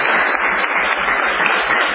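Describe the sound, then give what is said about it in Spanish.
Applause as a man claps for himself while being greeted: a dense, continuous patter of clapping, fairly loud and even from start to finish. “Me aplaudo yo.”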